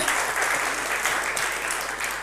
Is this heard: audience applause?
yes